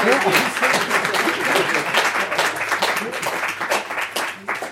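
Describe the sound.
Audience applause welcoming a professor onto the stage for an evening lecture: a dense, sustained wash of many hands clapping at a steady level from start to finish.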